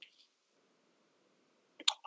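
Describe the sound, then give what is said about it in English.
Four dice rolled in a tabletop game: mostly quiet, then a quick cluster of sharp clicking clatters near the end. “I roll 4 dice. All right, dice. Here we go.”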